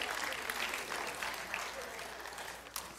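Church audience applause as mission teams and a middle school serve team come up on stage at a morning service: dense, sustained clapping that stays loud throughout, then eases slightly toward the end.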